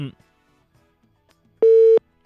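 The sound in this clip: A telephone busy tone after a call is hung up: one short, steady mid-pitched beep that sounds alone, following a brief trace of voice at the very start.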